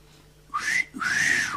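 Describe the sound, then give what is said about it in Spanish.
A two-part wolf whistle aimed at a pretty woman passing by: a short rising note, a brief gap, then a longer airy note that climbs and falls away. It is clear and fairly loud, with no talk. “¿cuál será el origen del característico silbido que se emite o se emitía al pasar cerca a una mujer bonita?”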